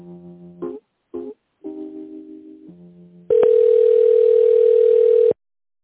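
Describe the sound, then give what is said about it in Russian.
Telephone line tone during a call transfer: a few short pitched electronic notes, then one loud, steady buzzing tone lasting about two seconds before cutting off to silence. “Хорошо, соединю вас с Тимуром.”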